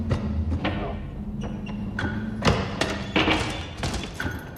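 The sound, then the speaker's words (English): Dull thuds and rattling as someone tries the locked, grimy glass-paned double doors of a charred building. A series of uneven knocks and jolts comes in irregular bursts, with sharper hits in the middle and later part. “She tries the doors, but they won't open.”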